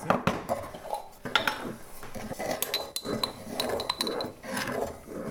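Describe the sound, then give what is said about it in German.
Two teaspoons of sugar are spooned into a pot of liquid, with many light, irregular clinks and scrapes of a spoon against metal at low volume. “Also Ingwer und Zucker. Zucker zuerst. Mhm. Komplett rein hier. Zwei Teelöffel.”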